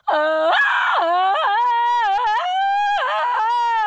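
A long, loud, wavering vocal scream of the kind made while watching something confusing, held as a steady tone with bends and wobbles in pitch and no other sound.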